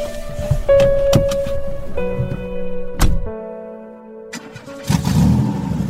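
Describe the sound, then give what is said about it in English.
SUV engine starting and settling into an idle: a few sharp clunks, then a steady humming drone whose tone shifts in steps. “My SUV idled with promise.”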